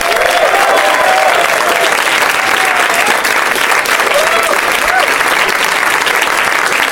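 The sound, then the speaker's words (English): Loud, sustained applause and clapping from a live comedy show audience as guest comedians are welcomed onstage, a dense, steady roar of hands that continues at full strength throughout. “Yay, yeah, keep clapping loudly into my ear.”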